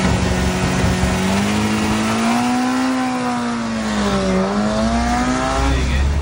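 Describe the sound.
Rear-engined car revving at high rpm at a start at the foot of a hill, a loud steady engine note that climbs in pitch, dips briefly and then rises again.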